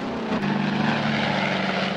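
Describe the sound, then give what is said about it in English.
Propeller airplane flying through clouds. A steady engine drone with a constant low buzzing tone runs unbroken, with no voices. “Jim looks all around to see if he can see Woody's plane, then steers his plane sideways.”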